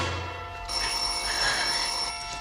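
A telephone bell rings in a 1950s setting. It starts after a short quiet moment and continues as a steady, bright, unbroken ring to the end, with no voices.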